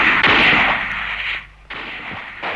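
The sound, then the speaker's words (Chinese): Pistol gunshots in a dramatized wartime scene: a few sharp cracks, each followed by a sustained hissing ring, with a brief near-silent gap between them and no voices. “罗金宝嗖的一声拨开了两把刺刀，掏出了枪，冲着两个汉奸啪啪就是两枪。”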